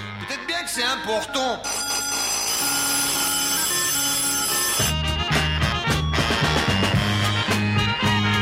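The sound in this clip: Telephone ringing within a song about a call that cannot get through, a sustained ringing tone held over the music in the middle, with a singing voice and band heard before and after it.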